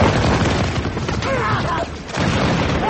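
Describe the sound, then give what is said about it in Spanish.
Spanish Mauser rifles fire in a battle against Tagalog insurgents as a village burns during the Philippine siege. The result is a dense, continuous roar of gunfire and booming noise with no clearly separate shots. “Los Mauser españoles responden a todos los ataques.”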